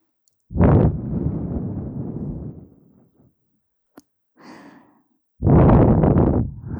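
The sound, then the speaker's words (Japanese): Puffs of air are blown out in long, breathy rushes: two strong blows with a shorter, softer one and a small click between them. “ふうするね。”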